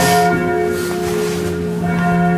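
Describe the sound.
Church bell striking the hour in a tower above a city square: a loud, sustained metallic ring with layered humming overtones that swells, dips slightly, then swells again, with no talk.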